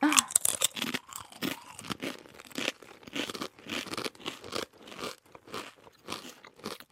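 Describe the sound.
Crunching bites of homemade fried cassava fries: many sharp, irregular crackles and crisp snaps in quick bursts, with brief quiet gaps between chews.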